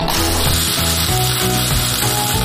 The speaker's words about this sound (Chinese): 下面呢，我们先下汁儿